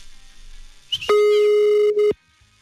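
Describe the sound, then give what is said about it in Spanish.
A telephone line rings after a number is dialed, one steady, loud electronic tone lasting about a second, preceded by faint low noise. “Así que marcamos rápidamente. Buenos días. Olé. Shh, cállese, cállese. Ahí está marcando ya.”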